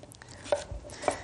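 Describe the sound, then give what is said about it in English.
A knife chops through pre-washed potatoes being cut thin for mashing, a few crisp knocks on the board with short pauses between them. “And we're just going to chop up two potatoes.”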